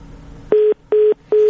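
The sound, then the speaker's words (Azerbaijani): A telephone disconnect tone after a call line is cut off: three identical short mid-pitched beeps in an even rhythm, each about a fifth of a second long and separated by brief gaps, over faint line hiss. “Telefon xətti kəsildi”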